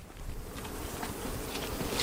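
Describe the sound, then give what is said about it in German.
Native Carniolan honey bees buzz at their hive, a colony of around 40,000, producing a steady, dense hum that holds fairly even throughout with no voices. “Die heimische Karnika-Honigbiene.”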